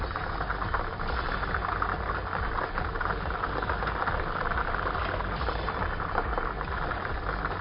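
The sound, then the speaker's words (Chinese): Steady rattling whir of a lottery ball drawing machine running at a televised draw, balls tumbling continuously at an even, fairly loud level throughout with no pauses and no voices. “我们摇奖机呢已经正式启动了”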